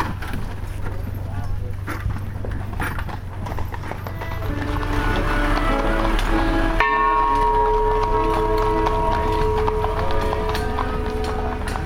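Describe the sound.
Horse hooves clip-clopping as a horse-drawn carriage moves forward to make room among other carriages, a steady run of hoofbeats under people talking, with ringing bell tones joining in the second half.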